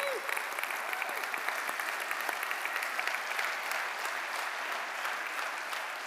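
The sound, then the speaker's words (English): Audience applause welcoming two guest speakers to the stage: dense, even clapping from many hands that holds steady and fairly soft for several seconds. “Let's give them a warm welcome.”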